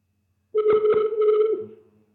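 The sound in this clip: A telephone ringing tone with a buzz on a call that is not picked up: one steady, buzzy tone lasting about a second, with a couple of clicks early on, then fading into a lower hum.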